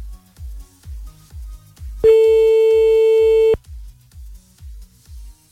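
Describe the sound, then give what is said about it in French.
A telephone ringing tone on an outgoing call: one steady, fairly loud, mid-pitched tone held for about a second and a half over a repeating low, thumping beat. “Hop là, on appelle maintenant. J'ai pas envie d'appeler trop tard, j'ai peur de déranger.”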